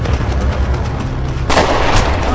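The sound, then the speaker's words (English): Gunfire as someone calls on fleeing people to stop: a dense, continuous crackling roar with no separate shots standing out, turning louder and brighter about halfway through. “Stop, or we'll open fire.”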